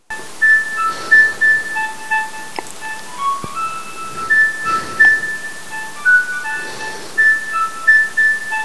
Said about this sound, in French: Mais c'est le téléphone qui sonne, mais c'est pas grave, tu vois, ça nous fait un jingle bien improvisé et tout.